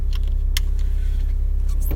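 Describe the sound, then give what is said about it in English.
Car pulling out of a house driveway: a steady low engine rumble throughout, with a few brief, high clicks or jingles over it. “Just now pulling out of my house, driveway, parking area, whatever,”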